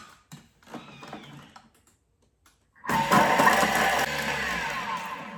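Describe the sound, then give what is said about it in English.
A blender whirs loudly and steadily while blending a fish-taco marinade with juice at speed 7. It starts after a few seconds of light kitchen clatter and a short quiet pause. “Okay, so I just blended that for 7 seconds on speed 7.”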